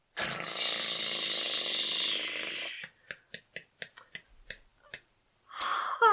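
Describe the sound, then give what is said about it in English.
Prize wheel spun in a game, first a loud broad rushing whir, then a run of sharp ticks that space out and stop as the wheel slows to rest. “Okay, so we're going to spin the wheel and see what bullshit he's going to say next. We're going to spin the wheel of bullshit.”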